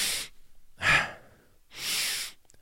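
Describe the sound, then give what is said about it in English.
Inhale-biased breathing as a breathwork exercise, with active, drawn-out inhales longer than the passive exhales. A few loud, airy breaths swell and fade in a slow, regular rhythm, with no talking. “So an example of inhale biased breath work would be,”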